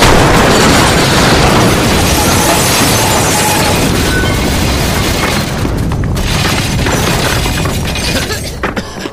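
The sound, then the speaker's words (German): A radio set explodes in a loud, sustained roar of crashing and shattering noise that fills the whole stretch, dense and harsh throughout, easing slightly toward the end. “Das Funkgerät. Es wird doch nicht explodieren, oder? Ach Unsinn, Funkgeräte explodieren nicht.”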